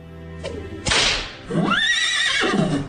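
A whip cracks and a horse whinnies as a horse-drawn cab sets off: one sharp, loud crack, then a long neigh that rises and falls in pitch.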